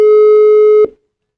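A telephone ringing tone on a call: one loud, steady mid-pitched beep lasting under a second, then cut off into silence.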